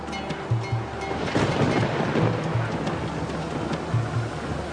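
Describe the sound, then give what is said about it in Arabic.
Stormy sea around a fishing boat taking on water: a loud, steady wash of waves and driving rain with a few heavier surging swells, no voices. “العاصفة يا رب، العاصفة. خلاص احنا بنغرق”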